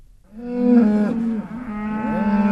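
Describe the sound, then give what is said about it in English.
Dairy cows moo at milking time on a drought-affected farm outside Toowoomba in southern Queensland: long, low, droning calls that waver in pitch and carry on almost without a break, with a second bellow near the end. “It's milking time at Scott Prebendo's farm outside of Toowoomba in southern Queensland. But with every litre of milk that comes out of his cows today, he knows he's losing money.”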